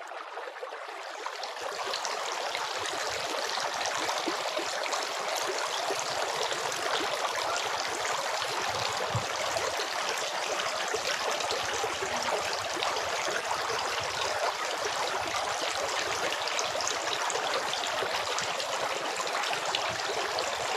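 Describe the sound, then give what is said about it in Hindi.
Water poured from the palm while washing the arms during ablution: a steady, continuous splashing hiss that begins after a brief silence and runs on evenly without voices. “फिर वह हथेली में पानी लेते और अपने दाहिने बाजू को धोते और वह फिर से हथेली में पानी लेते और अपना बायां बाजू धोते।”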